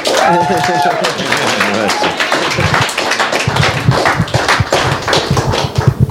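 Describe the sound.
Audience clapping welcomes a speaker at a church revival conference, a dense patter of many hands that grows busier after a few seconds, with voices talking at the start.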